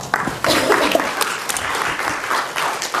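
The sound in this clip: Audience applause welcoming a guest speaker at UCI: dense, steady clapping from a crowd that continues evenly throughout, with no pause or clear fade.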